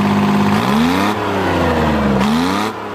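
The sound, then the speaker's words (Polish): Deep, tank-like roar of a slow-revving 7-litre engine turning only about 2000 rpm, fitted to an oddball vehicle with a 200-litre barrel as its fuel tank; loud and continuous, with the pitch climbing in two revs. “no on szybko nie jedzie, bo to jest silnik wolnoobrotowy, mimo tego, że ryczy jak nie wiadomo co, jak czołg, ale on ma tylko 2000 obrotów”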